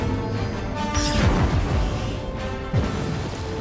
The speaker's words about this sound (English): our mechanical effects team did such a great job with the explosions,